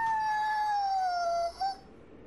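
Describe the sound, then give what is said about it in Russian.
A dog howling: one long, clear, tonal wail that slowly falls in pitch, breaks off, rises briefly in a short second note and then fades out. No one speaks. “Вьюга в подворотне ревет мне отходную. Я вою с ней.”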